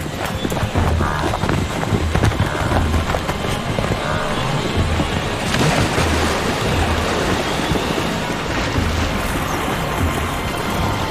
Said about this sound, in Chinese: 东非角马大迁徙就是最典型的例子。对他们而言，大规模群居、集体迁徙能大幅提升种群存活概率。